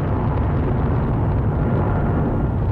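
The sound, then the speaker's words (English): Rocket lifting off: a loud, dense, continuous roar that stays steady throughout with no distinct breaks or separate bursts. “From the moment a rocket lifts off, it is tracked and monitored.”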